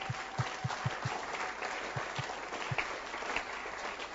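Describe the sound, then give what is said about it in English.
An audience at a church gathering claps continuously, a fairly faint, dense patter with a run of evenly spaced low thumps near the start and a few more later. “Yes. You can clap.”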